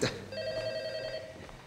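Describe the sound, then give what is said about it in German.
A telephone ringing: one bright, steady electronic trill that holds for about a second before cutting off, alone with no talk. “Geht da vielleicht mal jemand ans Telefon?”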